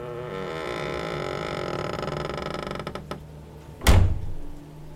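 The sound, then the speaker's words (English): A door in an old state hospital building creaks shut with a long, drawn-out, wavering creak, then closes with a single heavy thud near the end. “The door creaks shut behind you.”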